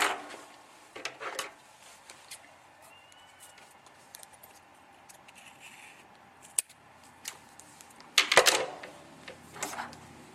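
Scissors cutting a length of cord while wrapping: a sharp crisp snip burst near the end, amid faint scattered handling clicks and quiet rustling.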